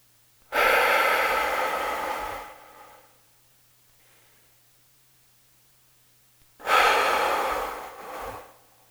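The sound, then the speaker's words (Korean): Two long, loud breaths taken during a guided belly-breathing exercise, each a rushing, airy exhalation and inhalation lasting about two seconds, separated by several seconds of near silence. “배에다 손을 얹으시고 내쉬고 들이마시고”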